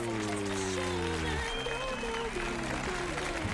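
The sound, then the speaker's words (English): Sustained applause from a studio audience as a show opens: an even wash of clapping that runs unbroken throughout, with sustained musical tones playing alongside it. “I thought I was trained to like wait until the end of the applause.”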